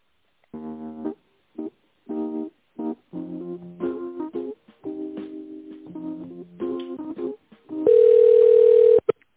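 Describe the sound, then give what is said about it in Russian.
A telephone ringing tone plays while a call is being transferred: a run of short steady electronic tones at shifting pitches, then one long, loud, unbroken tone near the end. “Секундочку, сейчас вас переключу.”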